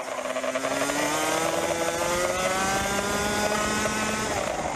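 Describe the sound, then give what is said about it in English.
A 125cc racing kart engine screams around a track in Florida at speeds nearing 100 mph. The loud, buzzing, high-revving drone holds steady throughout as its pitch climbs gradually. “Footage from a camera on board Fabian Lans's 125cc kart shows her racing on a track in Florida, the United States, at speeds sometimes reaching 100 miles per hour.”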